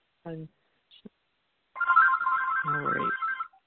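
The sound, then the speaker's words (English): A phone ringtone, a repeating electronic pattern of bright tones lasting under two seconds. Short bits of speech come before it, and a voice overlaps the end of the ringing. “Sorry about the phone.”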